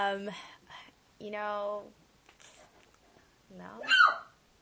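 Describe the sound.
A sleeping dog gives a few muffled barks and high, whining whimpers, each a short tonal yelp with quiet gaps between. The last cry rises sharply in pitch.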